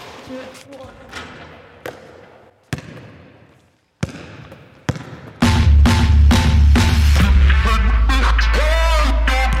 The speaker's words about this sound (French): J'ai vu le ballon, je peux plus m'en empêcher. Une petite place, un petit panier.